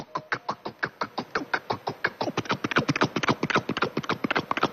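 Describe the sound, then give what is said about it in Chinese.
Hooves clip-clopping as two riders on horseback set out through a city gate toward a temple: many crisp hoofbeats in a steady rhythm that grows denser and slightly louder in the second half, alone with no voices. “第二天，佟麟和雍亲王两个人骑着马，就由打雍亲王府出来，出了安定门，够奔地坛。”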